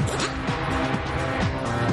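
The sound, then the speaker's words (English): Racing car engine accelerating down a straight after the bends, a rough, continuous buzzing roar broken by repeated short upward pitch sweeps. “He's having no problems with that tricky gear shift round the bends and now really opens her up down the straight.”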